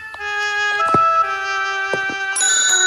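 A small hand bell rung by the lady of a house to summon a footman gives bright, ringing metallic tones. There are several strikes, and each one leaves overlapping partials that linger and blend into the next.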